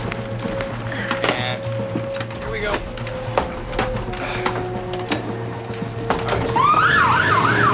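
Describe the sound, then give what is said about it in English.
An ambulance siren wails with a rising and falling tone near the end, as the ambulance carrying a child on a hospital trolley races off toward a waiting propeller aircraft, over a steady background of mechanical hum and tones. “The ambulance races off towards the waiting aircraft that has its propellers idling.”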